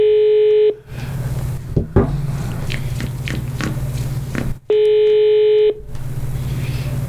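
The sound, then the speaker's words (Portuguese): Phone tones from a voice-commanded call being placed: two long, steady bursts of tone, each roughly a second, separated by a stretch of murky background noise. “Ligação de voz. Liga pro João. Não diga alô.”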